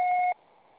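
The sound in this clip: A single steady electronic beep from a Brazilian phone voicemail system marks the start of message recording. It is short and clear, then gives way to faint line hiss.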